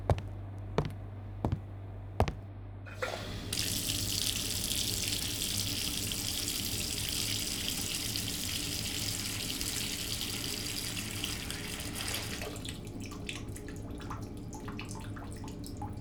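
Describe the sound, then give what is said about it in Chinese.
Water gushes steadily from a tap to fill a bath after a few sharp clicks. The flow runs on unbroken and fairly loud, and its tone shifts slightly near the end. “洗澡水已经放好了，现在可以去洗漱了。”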